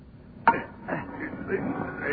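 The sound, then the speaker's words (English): A heavy lid being pried off by two people, one shoving and one pulling, opens with a sharp crack and is followed by a few softer, strained scraping strokes, all fairly faint. “Now, now, now, now, you shove on that side, and I'll pull on with this. Yes. There, there. Now, that ought to fetch the lid off.”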